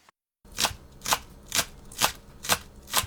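Knife chopping green onions and ginger for a garnish: six sharp, evenly spaced chops in a steady rhythm, each a crisp, bright strike heard alone with no talk.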